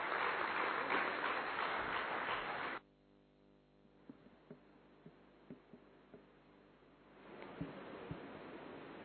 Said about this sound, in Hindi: तो जोरदार तालियों से स्वागत है डॉक्टर निर्मला दीदी.